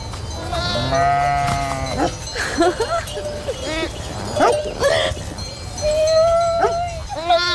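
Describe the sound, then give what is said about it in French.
Ewes bleating as they call their lambs, their calls deeper than usual: many overlapping, wavering bleats of varied pitch, some long and low, others higher and shorter, continuing loudly throughout. “Quand elles appellent leur agneau, elles ont un truc plus grave.”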